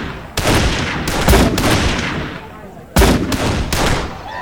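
Sharp gunshots ring out from shooters on a firing line at a shooting competition, many loud cracks in two clustered volleys separated by a brief pause.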